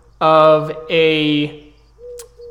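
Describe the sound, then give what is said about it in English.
A human voice imitates a large pigeon cooing: two drawn-out, throaty coos in quick succession, fairly loud, then a faint low hum. “The spirit arrives cooing as it makes itself manifest.”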